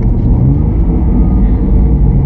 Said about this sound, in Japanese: 予測的にもいい感じで信号が赤になったから、さあエンジンブレーキの準備です。